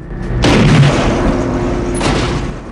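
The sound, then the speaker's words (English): A shotgun blast booms as it shoots open the back door of a moving prison bus: one loud, sharp hit with a long rumbling tail, then a second, fainter impact. “On board, Ryder fires the shotgun. Ryder shoots the back door open.”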